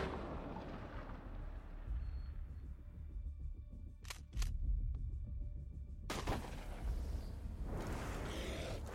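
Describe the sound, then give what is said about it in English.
A Dragon's Breath shotgun round is fired, throwing out a huge blast of fire: a couple of sharp clicks, then a broad, rushing blast, all over a steady, dense rumbling noise. “That was Dragon's Breath. It's a type of round that shoots a huge blast of fire.”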